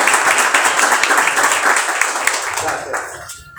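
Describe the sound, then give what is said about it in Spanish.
An audience at a public event breaks into strong, dense applause, a steady crackle of many hands clapping that tapers off toward the end. “Así que con un fuerte aplauso, te pedimos”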